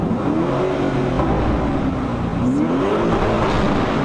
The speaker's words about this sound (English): An SUV with this kind of sound. How beautiful this is.